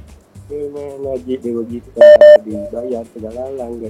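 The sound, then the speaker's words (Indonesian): Two loud, steady electronic telephone line tones sound back to back midway through, as a caller's line is picked up during a live radio song-request segment. A voice talks before and after the tones. “Jadi langsung kita angkat telepon dulu”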